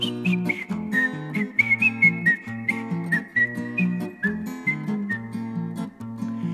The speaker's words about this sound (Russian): насвистывал дырочкой в правом боку. Дыркой в боку свистел.